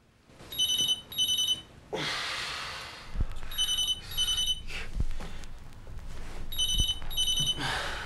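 A telephone ringing in a flat, sounding three bursts of bright, electronic double rings, with rustling and clattering of rubbish on a coffee table in the gaps between rings.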